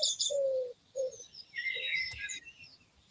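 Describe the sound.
A cuckoo calls faintly in a few short, low hooting notes, while higher thin chirps from other birds flutter over them against a soft background.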